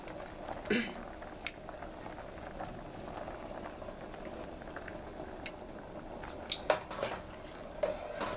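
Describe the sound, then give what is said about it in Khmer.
Steady bubbling and hiss from a pot of softened beans as glutinous rice is added for a Khmer sweet dessert, with a few faint clinks of utensils against the pot. “បាទឥឡូវនេះបន្ទាប់ពីសណ្ដែករបស់យើងគឺបានផុយល្មមគ្រប់គ្រាន់ហើយយើងអរគ្នានឹងចាប់ផ្ដើមដាក់ជាមួយនឹងអង្ករដំណើររបស់យើងម្ដងដើម្បីវាផុយដំណើរគ្នា”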